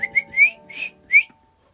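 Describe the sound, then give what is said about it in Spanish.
A man whistles as if calling a dog, giving five short, sharp, high whistles in quick succession. The first two come close together, and the rest follow in a loose rhythm. “Enfadado, el hombre silbó. Como cuando se llama un perro.”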